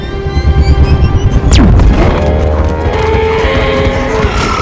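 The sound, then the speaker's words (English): Bombs explode as spinning alien weapons speed through a valley, dropping them so the ground ignites and fire spreads; a dense, loud rumbling roar runs throughout, broken midway by a sharp whoosh that sweeps downward in pitch. “Spinning weapons speed through the valley, dropping bombs that ignite the ground and spread.”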